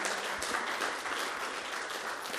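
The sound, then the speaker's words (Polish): Applause at an awards ceremony in Wołomin, Poland, honouring an absent boxing coach: dense, even clapping from the audience that holds steady throughout with no voices over it. “Proszę o brawa dla pana Pawła.”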